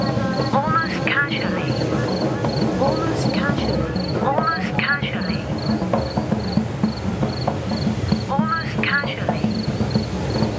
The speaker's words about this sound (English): The cicadas never stop.